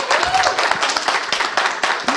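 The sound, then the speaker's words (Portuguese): A round of applause for a guest at a gathering: dense, steady clapping that holds for about two seconds, with a few voices mixed into the crowd noise. “e também uma salva de palmas para ela, não é?”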